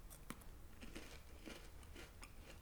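Quiet chewing of a crunchy, lightly salty snack, a series of crisp, irregular crunches over a low steady hiss.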